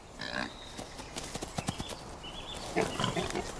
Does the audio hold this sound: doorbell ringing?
no